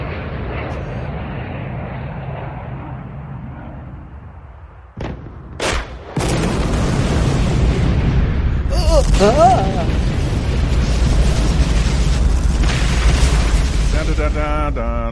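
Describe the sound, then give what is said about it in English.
A nuclear bomb destroys the president's motorcade in a video game's opening scene. A low rumble fades, a couple of sharp bursts hit, then a loud, sustained roaring blast with crackling debris fills the rest. “This game fucking starts up with the president's motorcade getting blown to shit by a nuclear bomb, dude.”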